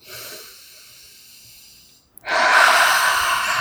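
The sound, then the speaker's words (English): A deep breath during a tapping session: a softer airy breath for about two seconds, a tiny click, then a louder, rushing breath that carries on steadily to the end. “Deep breath.”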